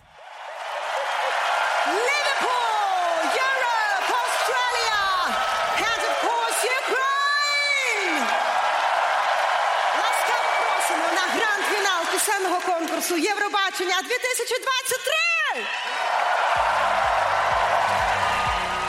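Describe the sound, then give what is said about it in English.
A very enthusiastic crowd cheers at the opening of the Eurovision Song Contest 2023 grand final, a dense, loud, unbroken roar scattered with whoops and rising and falling shrill whistles. “And this is how the song contest opened on the dynamic visual stage with a very enthusiastic audience.”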